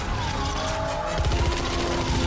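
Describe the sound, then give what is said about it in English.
Gunfire during a James Bond car chase, with a gunman in an Alfa Romeo firing at an Aston Martin: rapid, dense bursts of shots over a constant engine roar. “The Alfa gunman is leaning out of the car's passenger window. Bond ducks as glass and bullets fill the Aston.”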